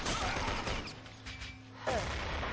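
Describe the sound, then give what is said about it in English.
Gunfire rattles back and forth in a capture-the-flag video game fought on a desert canyon map with pistols, including a Desert Eagle: dense, overlapping bursts of shots, with a hard volley at the start and another near the end. “An exchange of fire here.”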